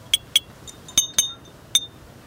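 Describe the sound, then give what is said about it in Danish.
A teaspoon tapping on glass bottles, making six bright, ringing clinks in an uneven rhythm, one much fainter than the rest. Each strike has a short, high-pitched ring, with quiet gaps between them. “jeg har fundet en form for teske, som jeg ligesom kan slå på de her flasker med. I kan lige få et lille smagsprøve.”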